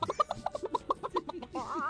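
A chicken clucks in many rapid, short bursts, then ends with a longer, wavering cry.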